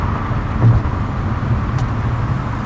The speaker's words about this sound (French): Nous voilà sur la Dan Ryan Expressway, gigantesque et monstrueuse autoroute urbaine qui file vers le sud.